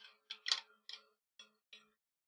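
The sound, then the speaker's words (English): Screwing and tightening the joint of a folding shovel gives a handful of faint, sharp metallic ticks spaced irregularly, with quiet gaps between them. “And you screw that back in there like this.”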